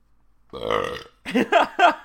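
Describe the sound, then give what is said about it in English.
A loud, drawn-out human belch that rumbles for about half a second and ends abruptly; after a short pause, people start talking. “Yes, we have an exciting belch. It's real good. I apologize. That kind of crept up on me.”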